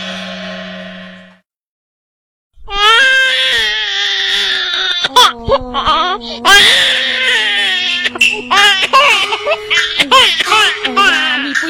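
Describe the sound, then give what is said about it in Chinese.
A baby cries in a scene from a Gannan tea-picking opera. After a brief tone and a moment of silence, loud wailing sobs rise and fall in pitch and continue unbroken to the end. “你看呐，我的宝贝儿怎么那里哭个不停啊？”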